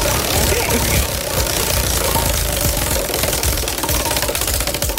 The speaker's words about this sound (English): Let's spin the wheel and see which apple or which gift basket you're going to get, okay?